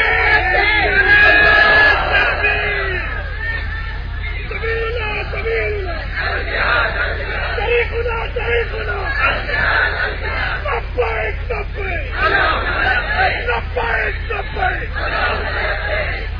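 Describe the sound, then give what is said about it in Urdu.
A crowd of students at a religious gathering shouts a slogan together in joy, with loud overlapping yells and whoops. The roar of voices stays dense and steady throughout. “ایک نعرہ بھی لگائیں پھر خوشی میں.”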